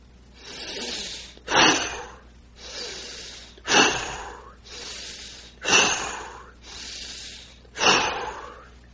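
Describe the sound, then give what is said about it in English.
Four deep, vigorous breaths during a guided breathing exercise, each a softer drawn-in inhale followed by a forceful, louder exhale, repeating evenly about every two seconds. “So we now take four deep, vigorous breaths”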